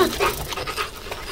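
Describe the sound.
A small dog pants on dusty ground with quick, rhythmic, breathy huffs that keep a steady fast pace through the short clip.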